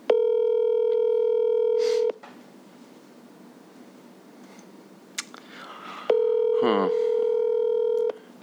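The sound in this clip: A telephone call to a friend goes out as two long, steady electronic ringing tones of about two seconds each. A few seconds of faint background hiss separate them.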